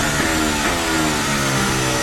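A Formula 1 car engine screams as Hamilton drives to the line, a loud, continuous high-revving whine with dense harmonics that stays steady throughout.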